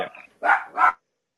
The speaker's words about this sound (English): The dog's going nuts.